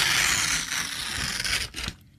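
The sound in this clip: A paper contract being torn: one continuous rasping rip lasting about two seconds, fairly loud and alone, then cutting off abruptly.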